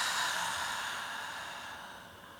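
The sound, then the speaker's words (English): A slow, deep exhale after a deep breath in through the nose during a guided grounding meditation. It is a faint, airy rush of breath that gradually fades over a couple of seconds. “Take another deep breath in through the nose. Exhale.”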